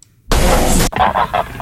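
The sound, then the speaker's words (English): Geese honking: a loud, harsh burst of squawking, then a few shorter, nasal honks in quick succession, heard alone without talk. “Two out of three geese. Six out of seven seagulls. And this Transylvanian owl all agree”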